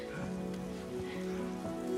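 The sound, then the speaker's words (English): Rain falls in a steady, even patter, a soft continuous wash of drops without pause or break. “if we went out this rain, we should be fine.”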